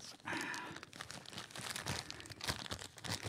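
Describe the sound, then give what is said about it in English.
A plastic-wrapped package is torn open: a busy, continuous run of crinkles, crackles and rips, fairly quiet throughout. “All right, so where's the rippy thing? You can't rip these. All right, here we go.”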